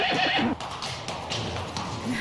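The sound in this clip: A horse gives a loud, shaky whinny, then hooves clip-clop in an uneven series of taps that runs to the end of the short clip.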